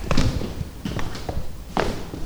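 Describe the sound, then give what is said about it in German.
Footsteps of people walking into a room full of cardboard boxes in an office where ticket sales staff work: a few soft, uneven thuds and shuffles at low level, with no clear voices. “Wir gehen jetzt in einen Raum.”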